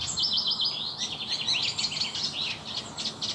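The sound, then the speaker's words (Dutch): A Eurasian reed warbler sings together with a common redstart in a vegetable garden in Laren, Gelderland, giving continuous high chattering chirps and trills without pause over a soft, steady background hiss. “Annemarie Beumer hoort in haar moestuin in Laren, Gelderland, een kleine karikiet in samenzang met een gekraagde roodstaart. En een haan.”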